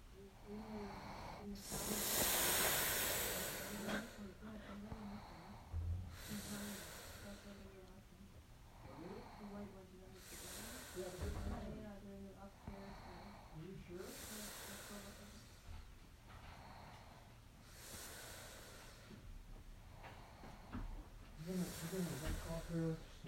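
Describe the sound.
Snoring, heard as slow, rhythmic breathy rasps that recur about every four seconds, faint throughout, with quiet talk in places.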